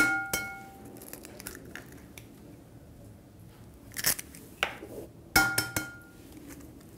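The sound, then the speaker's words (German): Butter and two eggs going into a mixing bowl: a few sharp clinks and cracks against the bowl, separated by quiet stretches. “Dann nehmen wir noch die Butter hinzu. Zwei Eier.”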